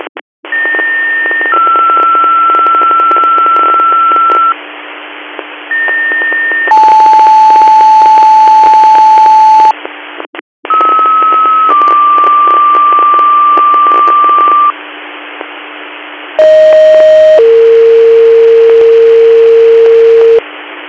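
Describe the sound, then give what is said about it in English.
Emergency dispatch paging tones for a rescue squad's medical call come over a radio channel: steady, loud beeps in fixed pitches, each short tone followed by a longer one, sent as two groups separated by a brief gap, over constant static hiss. “Control to Wallowego, squad monitor, second set of tones for your code 2 call, cancel for mutual aid.”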